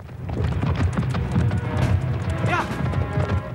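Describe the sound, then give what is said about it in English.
Hoofbeats of a horse galloping off through trees, a heavy, driving rhythm of low thuds repeating steadily and loudly throughout. “Cleary, knelt beside Stanton's body, watches alarmed as Jim leaps onto Stanton's horse and gallops off through the trees.”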